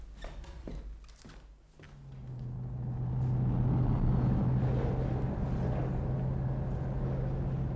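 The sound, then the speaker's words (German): A car is started and brought out of a garage. A few short knocks come first, then a low engine hum rises and holds steady and fairly loud. “Gut, ich hole den Wagen sofort aus der Garage.”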